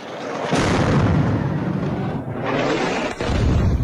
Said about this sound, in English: These are 2,000-pound bombs. One of the most destructive munitions in Western military arsenals. When a 2,000-pound bomb detonates, it unleashes a blast wave and metal fragments thousands of feet